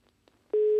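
A telephone line tone sounds while a call is being placed. After a brief near-silent stretch, a single loud, steady mid-pitched tone begins and holds unbroken to the end.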